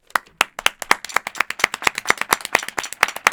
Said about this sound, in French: Applaudissements.